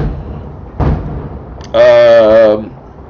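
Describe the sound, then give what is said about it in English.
A cannon fires, one short heavy boom that breaks out of a low background rumble. “He's got guys lined up in the fence. Cannon, just blowing them up with cannon.”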